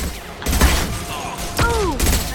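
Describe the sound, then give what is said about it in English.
Rockets fired at the player in a video game produce two loud, heavy blasts with thudding low ends. A descending whooshing tone trails the second blast. “They're shooting rockets at us.”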